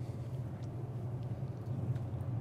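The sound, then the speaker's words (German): A train runs through a forest, giving a steady, unbroken low rumble with a faint rushing hiss above it that holds at an even level throughout. “Zug fährt ganz pünktlich, hat man den Eindruck.”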